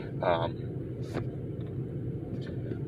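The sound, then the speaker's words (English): Car engine noise while parking in a lot: a steady low rumble runs throughout, with a few brief, faint higher noises on top. “And as you can see, I just pulled into a parking spot, and so I apologize for any background noise there.”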